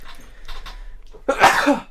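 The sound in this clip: A single loud, sharp sneeze bursts out near the end, preceded by a few softer breathy sounds.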